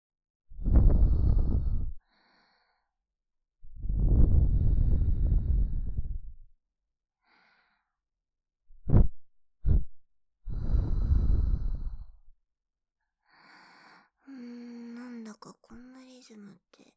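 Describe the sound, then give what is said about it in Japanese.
A person imitates Lamaze-style childbirth breathing with long, breathy exhales, two quick sharp puffs, then another long exhale, each separated by pauses, followed by softer voiced sounds. “あれみたい。あれなんだっけ、あれ妊婦さんが出産の時にする呼吸、ママーズ法。”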